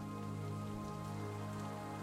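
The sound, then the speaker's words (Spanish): Rain falls in a steady, even patter, soft and continuous, with no breaks or separate drops standing out and no voices. “La lluvia está cayendo en este momento. Va a un ritmo perfecto.”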